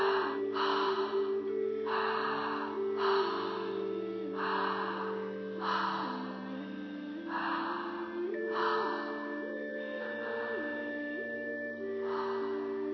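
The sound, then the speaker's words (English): Fast, full open-mouth breaths drawn up into the chest, like breathing while running, repeat in a quick, even rhythm of many strong airy gusts over a steady background tone. “Big inhales up into your chest. And I'll demo kind of like a much fuller breath, like you're running.”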